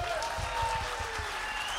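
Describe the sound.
Warm audience applause for a guest on stage, a soft, continuous patter of many hands with a voice talking over it.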